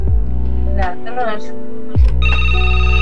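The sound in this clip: Telephone ringing for an incoming call on a studio phone line, a tonal ring mixed with steady hum and a voice speaking over it.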